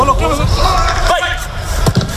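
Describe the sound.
Real Madrid football training under Mourinho at Valdebebas: steady open-air hubbub with muffled voices, a sharp thud of a ball strike midway and a softer knock near the end.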